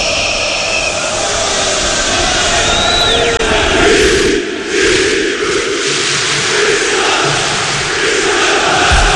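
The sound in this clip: Beşiktaş football fans chant to greet the players as they come out, a loud, dense, continuous crowd roar that swells and dips slightly but never stops.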